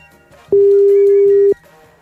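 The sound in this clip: A telephone ringing tone sounds while a collect call is dialed: one loud, steady, mid-pitched tone lasting about a second, set against a faint background.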